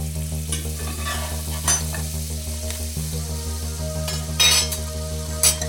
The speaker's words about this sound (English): in the chocolate chips and rainbow sprinkles. Now you're ready to cook.